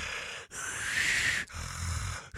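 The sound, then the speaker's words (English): A voice imitates the strained, raspy breathing of an unresponsive, drooling man: three drawn-out, noisy breaths with a harsh, snorting rasp, separated by short pauses. “his breathing is not labored, but it's not easy. Like, I can hear him go,”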